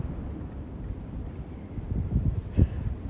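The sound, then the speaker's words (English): Hot, dry northerly wind buffets the microphone in low, rumbling gusts that swell and grow stronger toward the end, with no other sound heard. “Again, I'm sure this wind will come through on this recording. It's just a hot northerly wind.”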